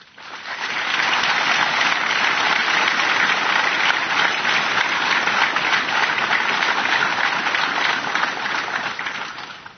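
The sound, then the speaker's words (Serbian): Applause at a police ceremony marking the Day of the Ministry of Internal Affairs and Police Day in Serbia: a dense, continuous roar of many hands clapping that rises quickly, holds steady and loud, then tapers slightly at the end. “Molimo vas da ih pozdravimo aplauzom.”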